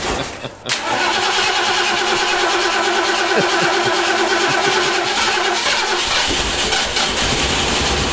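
A car engine cranks and struggles to start, with a sharp click and then a long rhythmic mechanical churning that keeps an even loudness for several seconds.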